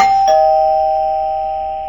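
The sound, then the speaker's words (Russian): A doorbell rings at the front door of a quiet house: one bright, clear electronic chime that starts sharply and then hangs on, fading slowly for nearly two seconds, with nothing else heard. “Неожиданный звонок в дверь заставил ее вздрогнуть.”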